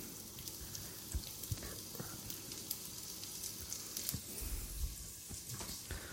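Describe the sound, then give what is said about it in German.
Meat sizzles in a pan along with carrots, onions and leek, a steady crackling hiss dotted with sharp pops and spatters, with no voices heard. “Der kommt jetzt erstmal in die Pfanne. Und dann kommt natürlich das Gemüse dazu, die Möhrchen, Zwiebeln und der Lauch.”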